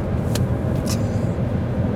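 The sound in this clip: Steady low road rumble from a car driving on the road on a trip to school, a constant dense drone with two brief airy hisses near the start.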